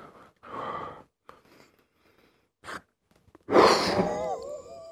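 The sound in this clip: Breathy exhalations during a breathing exercise using a balloon: a few soft, airy bursts with pauses, then a longer, louder exhale carrying a wavering tonal whine.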